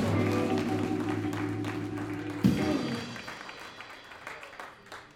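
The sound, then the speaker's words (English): Audience applause and cheering for a comedian introduced as a Denver native at a live comedy panel show: loud, sustained clapping over a steady low tone that cuts off midway, then the applause gradually thins and fades. “Make some noise for Rick Bryan.”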